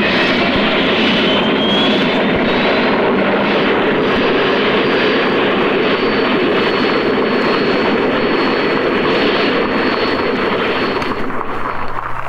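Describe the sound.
Loud, continuous roar of an experimental turbine-powered race car engine, a dense jet-like rush with a thin high whine that rises slightly at first, then holds steady at an even level throughout.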